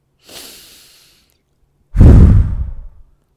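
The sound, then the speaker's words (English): A single deep breath: a soft, airy inhale lasting under a second, a brief silent pause, then a much louder, heavier exhale that tapers off over about a second. “can we do it together for a second? Like, I want us to literally take a deep breath.”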